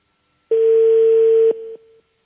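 A telephone line tone plays while a call is being placed: a single steady, pure mid-pitched beep holds for about a second, then drops to a quieter tail before cutting off.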